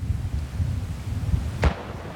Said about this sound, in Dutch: Een knal, een stofwolk en rook. Langs het spoor worden mijnen geruimd.